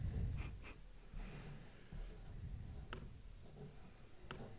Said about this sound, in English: I am writing out the grid here. I am also writing down my score